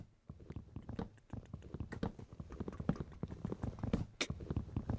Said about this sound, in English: You know what's better than redstone? Hmm. It's the sound of punching wood.